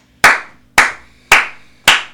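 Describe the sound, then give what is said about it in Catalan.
Four sharp, loud hand claps in a slow, even rhythm, each a crisp smack with a short decay, given after a poem reading. “Ja pots parar d'aplaudir. Que això se sent molt fort de casa, els aplaudiments.”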